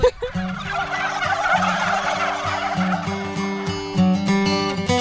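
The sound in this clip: A flock of turkeys on a farm gobbles and calls together in overlapping, throaty warbling notes. The calling is loud and continuous, with stronger bursts at the start and again near the end.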